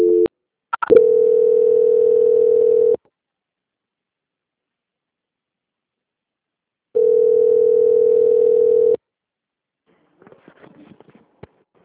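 Telephone tone during a call transfer: two long, steady, mid-pitched tone bursts of about two seconds each, separated by several seconds of silence, followed by a few faint clicks.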